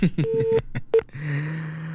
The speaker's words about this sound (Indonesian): Kita angkat pesawat telepon nih.